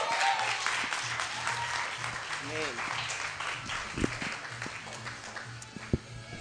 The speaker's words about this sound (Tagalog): Give it up for Pastor Ray Pactanak.